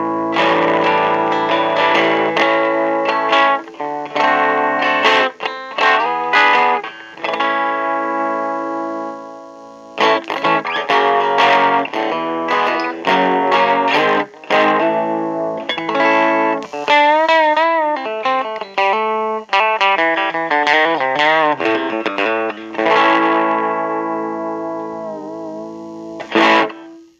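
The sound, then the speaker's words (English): Electric guitar through an effects pedal with volume and attack set low, played first in vintage mode, then modern mode: sustained distorted chords and single notes with bends and wavering vibrato, with a short gap near ten seconds. “so the volume is very low on the pedal, the attack is very low. So this is the vintage mode, this is the modern mode.”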